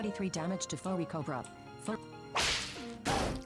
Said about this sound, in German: Jetzt geht wieder dieses Gepeitschte.